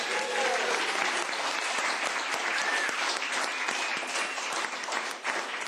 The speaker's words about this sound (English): there is a group of people in the room who are great supporters of WYEP. Give yourselves a hand.